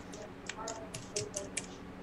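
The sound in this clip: Typing on a computer keyboard to enter a place name into a load board search: a few sharp, uneven key clicks, each short and crisp, over a low background murmur.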